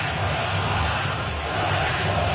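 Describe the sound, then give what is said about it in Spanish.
Baseball stadium crowd chanting for the Sox, a loud, steady roar of many voices that holds at an even level from start to finish. “Escuchen al público, let's go Sox, let's go Sox.”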